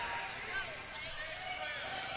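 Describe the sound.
Basketball dribbled on the court during a women's game against Morrilton, a few bounces set in a steady crowd murmur.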